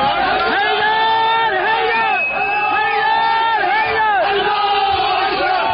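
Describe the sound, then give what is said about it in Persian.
Crowd of attackers cheering during the January 2016 attack with stones, sticks and Molotov cocktails on the Saudi embassy and consulate in Tehran and Mashhad: loud, continuous massed shouting with rising and falling chant-like cries throughout. “این صدای شادمانی مهاجمانی است که در 12 دی ماه 1394 با سنگ و چوب و کوکتل مولوتوف به سفارت و کنسولگری عربستان سعودی در تهران و مشهد حمله کردند.”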